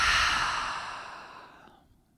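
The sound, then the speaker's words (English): A full breath released during a guided breathing exercise: one long, airy exhale that starts strong and slowly fades away into silence. “Let's take a full breath in through the nose, out through the mouth.”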